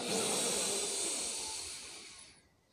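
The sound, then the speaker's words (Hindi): A long, deep in-breath drawn through the mouth during a breathing exercise: a steady airy hiss lasting over two seconds that trails off at the end. “लंबा सांस आपको लेना अंदर like ऐसे”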